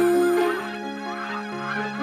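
Geese honk as they fly away, a loud, continuous stream of nasal calls that overlap and keep going without pause.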